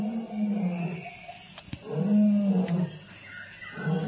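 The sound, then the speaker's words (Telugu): A lion roaring in pain: low, drawn-out groaning roars that rise and fall in a few repeated swells, with breathy rasping between them. “అప్పుడే ఆ సింహం చేసే గర్జనలు బాధ వినిపించింది ఆండ్రోక్లిస్కి.”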